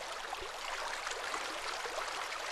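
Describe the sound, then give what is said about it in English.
Flowing water of the Murray River close to its source in Australia, a steady, even rushing hiss that runs unbroken throughout, fairly quiet with no voices. “The sound you can hear in the background is not a sound effect. It's not just something out of the library at the ABC. It's the real dinky-dye thing. And the thing it is the Murray.”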